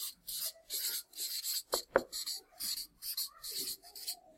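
Scratching strokes of handwriting, a run of many short, quiet rasping bursts in an uneven rhythm, with a couple of sharper taps in the middle.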